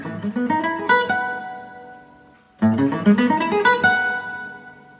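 A Lydian arpeggio plucked on a guitar tuned in fourths, spelling A, C sharp, E, G sharp, B and D sharp. Clear single notes climb in two separate runs divided by a short pause, and each run rings out at the end.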